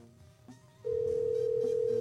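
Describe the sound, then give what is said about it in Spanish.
A steady telephone ringing tone on an outgoing call starts after a short stretch of quiet background noise and holds at one even pitch to the end. “Si no contesta, vamos a escoger a alguien más. Ya está sonando.”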